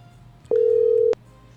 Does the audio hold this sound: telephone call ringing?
yes